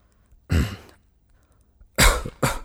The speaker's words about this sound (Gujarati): અરે, પણ અચાનક મને ઉધરસ આવે છે, મોટી, અટકતી જ નથી.